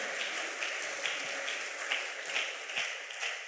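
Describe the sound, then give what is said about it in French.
A church audience applauds during a morning service, a dense patter of many hands clapping throughout at a moderate, even level. “Est-ce qu'on peut acclamer la parole de Dieu ce matin?”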